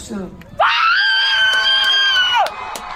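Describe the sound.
Cheering from a personal home video: one loud, sustained, high-pitched scream-like cheer lasting about two seconds, framed by quieter noise before and after.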